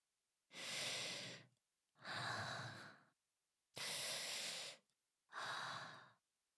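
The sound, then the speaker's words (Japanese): Deep breathing, four long airy breaths of about a second each, evenly spaced with short pauses between, soft and heard alone. “はい、ちょっと深呼吸しようか。”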